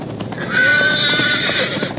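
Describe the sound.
A roan horse gives a loud, shrill whinny after a splinter from a lightning-split pine spears its hip. The cry is sustained and strained for over a second, with no talk.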